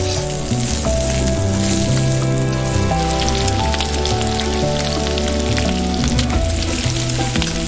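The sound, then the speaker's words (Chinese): Lean pork is stir-fried over high heat in oil rendered from fatty pork on a home stove, for a wine-lees pork dish from western Jiangxi. A loud, dense sizzle and crackle hisses steadily throughout without a break. “再将瘦肉投入热油，急火翻炒间锁住每一分肉汁。”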